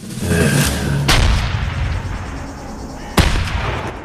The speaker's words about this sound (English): Buckland's Rangers fire on the helpless family.